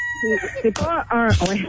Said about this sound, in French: Là, le coq, ils ont rajouté un coq.